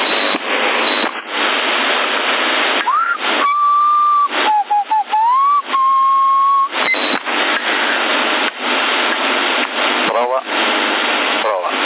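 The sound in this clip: Someone whistles into a CB radio microphone. The whistled tone wavers and bends in pitch midway, carried through a harsh, band-limited, static-filled radio channel that hisses throughout.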